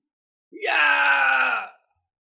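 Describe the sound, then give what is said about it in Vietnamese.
A single anguished, drawn-out human cry fits the screams and wails of people being killed. It starts abruptly with a short rising onset, holds steady and loud for about a second, then cuts off into silence. “Những tiếng kêu thảm thiết thê lương liên tiếp vang lên.”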